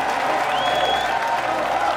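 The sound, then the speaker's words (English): A crowd of Virginians roars its approval, mixing sustained cheering and clapping into a thick, continuous wall of crowd noise that stays loud and steady from start to finish. “As the crowd roars its approval, you turn to the fellow soldier beside you once more”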